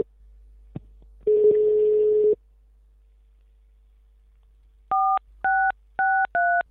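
Telephone dialing on a call to the police: a short click, then a steady dial tone for about a second, then after a pause four quick dual-tone keypad beeps in succession.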